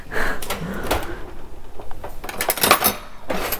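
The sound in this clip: Cutlery rattles and clinks as someone rummages for another knife while cutting a pineapple. Many irregular metallic clatters and knocks sound like utensils being shifted in a drawer.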